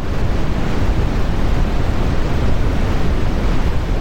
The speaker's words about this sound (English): something that is a little bit different from that is brown or red noise, which sounds like this.